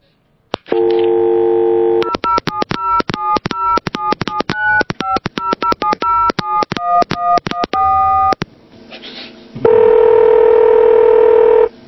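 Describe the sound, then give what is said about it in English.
A telephone is dialled and then rings: a steady dial tone, then a long rapid string of many keypad tones, a brief hush, and finally a loud, sustained ringing tone on the line. “Dial it, boy. Give it a dial.”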